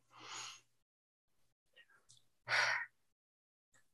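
A deep breath taken during a guided self-compassion exercise: two breathy rushes of air, the second louder and fuller, separated by a quiet stretch with a few faint soft sounds.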